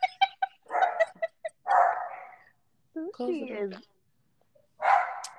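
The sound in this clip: A dog barks in a few short, sharp bursts mixed in with a person talking, with a higher whining sound in the middle.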